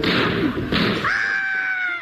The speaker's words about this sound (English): Oh, your boots have exploded.